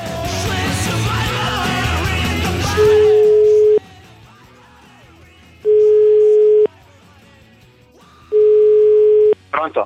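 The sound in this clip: Ringback tone on a telephone line while a call is being placed. After a stretch of talk, three long, steady, mid-pitched tones sound alone, each about a second long with roughly equal silent gaps between them.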